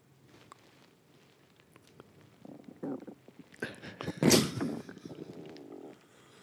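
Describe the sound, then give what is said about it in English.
A human stomach rumbling and gurgling in low, irregular bursts that build to one loud churning swell, then settle back to quiet. “here is the sound of my stomach.”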